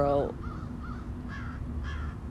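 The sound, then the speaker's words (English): Harsh, rasping caws from a crow perched high in the top branches of a tree. A few loud calls repeat over a steady low background rumble. “this crow has landed right in like the top branches of this tree, so I can't see it, but I know y'all can hear it.”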